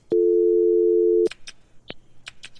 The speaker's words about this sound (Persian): تماس بعدی را میگیریم